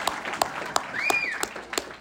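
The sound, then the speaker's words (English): Faint clapping from an audience at an Easter Sunday church service, with sharp claps landing on a steady, even beat, about six in a row. “You can clap for yourselves.”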